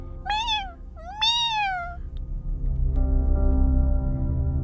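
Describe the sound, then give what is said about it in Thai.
A cat meows twice in the dark after someone throws a clod of earth at it. The first meow is short and the second longer, both rising then falling in pitch, over a steady low hum that swells afterward. “เอาก้อนดินคว้างไปที่แมวตัวนั้น”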